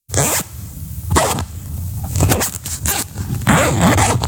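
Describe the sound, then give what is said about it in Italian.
A clothing zipper is pulled open and shut in several quick, scratchy strokes, each a short rasping burst, with the final pull drawn out longer than the rest. “Sono una cerniera.”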